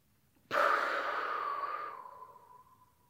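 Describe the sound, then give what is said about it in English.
A deep breath drawn in through the nose during a breathing exercise: one long, airy inhale that starts abruptly, holds steady, then fades away over about two seconds. “Now breathe in.”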